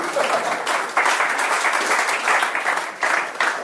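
Audience applause for volunteers: dense, sustained clapping from a crowd, loud and steady, with a couple of brief dips before it surges again.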